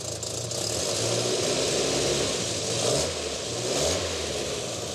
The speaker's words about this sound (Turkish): Daha büyük motoru ve çift karbüratörü var. Motor bölümü son derece temiz. Biraz zor çalışıyor, boğulabilir.